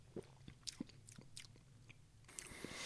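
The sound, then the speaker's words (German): Sips of an orange Red Bull Organics soft drink come as many soft, wet mouth clicks and gulps. They are faint and irregular, with no talking. “Ich nehme nochmal einen Schluck.”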